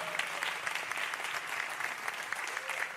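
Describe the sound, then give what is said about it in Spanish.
Audience applause at a gathering: a steady, dense wash of many hands clapping together. It holds an even, moderately loud level throughout, with no single voice standing out. “para que también pida un fuerte aplauso”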